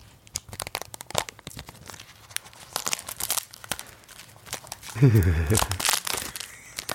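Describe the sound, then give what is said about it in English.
A thumbnail punctures and tears the cellophane wrapping on a box of stickers, close to the mic. Many sharp crinkles and crackles run throughout, with a louder, denser burst of tearing near the end. “I'm just going to open the cellophane. Now, this is the sort of thing that ASMR people would really enjoy. So I'm just going to puncture the cellophane. Do it right up to the mic. Thumbnail.”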